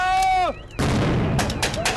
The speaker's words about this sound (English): Snipers shoot from the roof. American and Afghan troops dive for cover and begin returning fire.